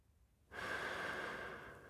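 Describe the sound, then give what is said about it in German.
One deep breath drawn in by a person walking through a forest in Patagonia. It follows near silence as a soft, airy inhalation lasting about a second and a half, tapering slightly at the end. “Ich atme tief ein.”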